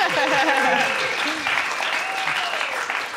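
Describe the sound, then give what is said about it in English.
Steady, loud audience applause for an award-winning documentary filmmaker, dense clapping holding throughout with a voice heard over it near the start. “how about a hand? She won an award.”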